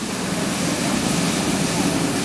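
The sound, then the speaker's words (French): Olive oil flowing out of an extraction machine after centrifuge separation of water and oil, extracted at about 24-25 degrees: a steady, loud, broad rushing hiss that stays constant throughout. “Et donc, cette huile qui coule, c'est vraiment... L'huile de l'olive qui est extraite à 24-25 degrés.”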